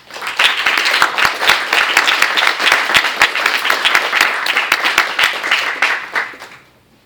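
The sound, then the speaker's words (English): An audience applauds to welcome a professor at a lecture discussion. The clapping rises quickly, stays loud and dense with individual sharp claps audible, then fades out near the end. “I'm happy to ask Professor Harvey to come up and give us some responses. Please help me welcome Professor Susan Harvey.”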